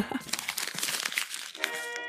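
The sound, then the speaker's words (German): A small scrap of paper lying before a door is picked up and crinkled, giving a continuous dry rustle with sharp crackles throughout. “Was liegt denn da vor der Tür? Ja, der erste Papierschnipsel.”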